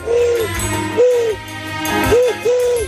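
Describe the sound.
A man imitates a pigeon's coo with his voice, making four low, hooting coos of uneven length, each with a rounded rise and fall, separated by short pauses over a faint background.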